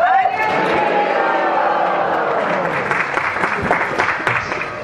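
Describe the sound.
Applause from a festival audience welcoming the next speaker: dense, steady clapping that stays loud and even for the whole five seconds, with crowd noise mixed in.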